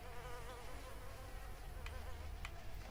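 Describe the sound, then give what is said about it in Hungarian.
Flies buzz around a person carrying a backpack with rotting meat, a steady droning whine with a wavering pitch that runs unbroken through the whole clip. “Lehet, hogy megrohadt a hús a hátitáskámban. Basszus kulcs. Azért vannak körülöttem a legyek.”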